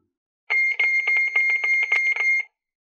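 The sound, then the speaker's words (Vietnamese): Harsh, high-pitched electronic alarm ringing from a wristwatch: a rapid run of sharp beeps that starts abruptly, keeps a fairly even loudness for about two seconds, then stops. “Thanh âm chói tai đột nhiên từ chiếc đồng hồ nhìn có vẻ bình thường đeo trên cổ tay truyền ra.”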